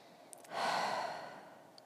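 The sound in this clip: A slow, soft exhaled breath taken as a cleansing breath during a guided affirmation meditation, a single breathy rush of air that swells and then fades, alone with no talk.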